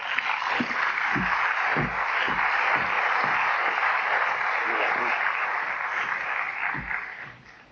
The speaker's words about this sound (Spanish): Démosle un aplauso.